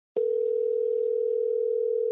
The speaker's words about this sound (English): So I'm going to dial him up right now, and we will get him on the line.